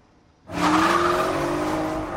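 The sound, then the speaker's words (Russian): Silver Porsche speeding along a road past fields: after a brief quiet start, a loud engine roar cuts in suddenly and holds steady at a high level, with a bright, whining edge. “Серебристый Порше мчится по дороге мимо полей.”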